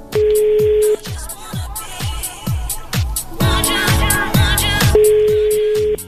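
Telephone tones from a call being dialed and left unanswered: a steady electronic tone at the start and again near the end, with a busy run of rhythmic beeps and tones between them, loud and with no talking.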